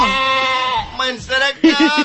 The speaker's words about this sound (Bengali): কয়ে দিতেছি এটা ভেড়া